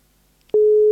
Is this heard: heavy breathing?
no